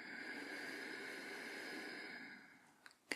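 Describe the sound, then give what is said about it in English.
Deep breath out through the right nostril during a relaxing medical roleplay nostril test: a long, steady, soft hiss of air that tapers off near the end, followed by two small clicks. “I'd just like you to do the same again, but just through your right nostril now. A big deep breath in for me, and out through the nose again.”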